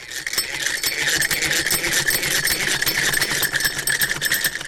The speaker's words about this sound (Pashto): په دې اړه د کابل په خوشحال خان کې د خیاطۍ د کورس له دوو تنو زده کوونکو سره غږېدلی یو.